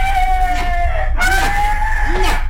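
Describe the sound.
Shrill, drawn-out squawking from a hen being beaten with a basket. A few strained cries run together without pause.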